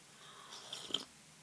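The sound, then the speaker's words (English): A quiet slurp of coffee: one soft, brief sip of about half a second, faint and alone. “Let's experience that quieter slurp one more time. Here we go. Cause I need some coffee.”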